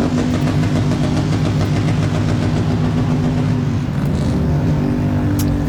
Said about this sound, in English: As for all the noise that the trikes are making here, they aren't moving that fast.